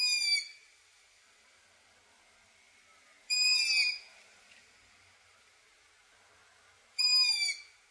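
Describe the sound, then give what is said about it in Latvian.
Long-eared owl chicks give high, squeaky begging calls, the kind heard in June and July. Three separate strained, whistled calls come at regular intervals with silence between them, each carrying a short falling note. “Tā ir tāda kārtīga īdēšana, tāds kārtīgs mām, kas varbūt vecākiem krīt uz nerviem, bet ornitologiem ļauj ļoti labi konstatēt ausaino pūču klātbūtni.”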